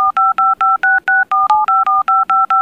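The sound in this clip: Touch-tone beeps as a long telephone number is dialed: a rapid, evenly spaced run of many loud, clean dual-pitched tones with short gaps, heard alone without talk.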